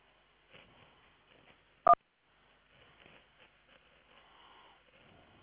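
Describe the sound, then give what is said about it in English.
A telephone keypad tone beeps once, short and clear, on an office phone line's automated menu, with a second tone starting right at the end over faint, low line noise. “Press 1 for Fatima, 2 for Robin, 3 for Rick.”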